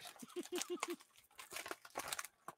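Crinkling and crumpling of plastic packaging as a G.I. Joe Classified Series Spirit action figure is ripped open: a run of rough rustling bursts separated by brief pauses.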